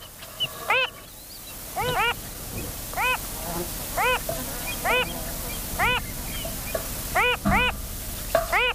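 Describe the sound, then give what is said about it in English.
Calls of a Wilson's phalarope, a spinning shorebird of salt lakes: many short, nasal, harmonic notes repeat at roughly one-second intervals, a few of them doubled, over a constant noisy background. “And this is the call of that spinning bird of Salt Lakes, the Wilson's phalarope.”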